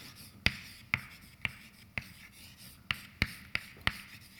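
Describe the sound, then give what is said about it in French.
Marker or chalk strokes on a board during a lecture: about eight sharp, bright taps and squeaks in an uneven rhythm over a quiet, hissy background, with no talking. “oui, peut-être je devrais écrire ça ici.”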